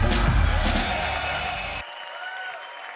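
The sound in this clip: An audience applauds and cheers at a church service during a biker weekend. A loud burst of clapping and whoops lasts under two seconds, then cuts off abruptly to a faint, quieter murmur.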